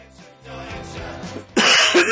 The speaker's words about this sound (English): cough.